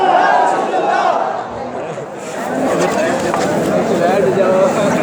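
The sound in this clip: A crowd at an Islamic conference shouts its responses to the Takbeer and Risalat slogans. Two loud, sustained roars of massed voices are separated by a brief dip.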